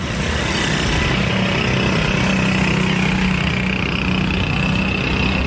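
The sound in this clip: Auto rickshaw engine noise: a loud, steady, rattling drone that runs unbroken throughout with no talk.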